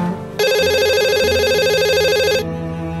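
A mobile phone rings with a bright, repeating electronic ringtone that starts abruptly, holds steady and loud for about two seconds, then cuts off over a low background hum.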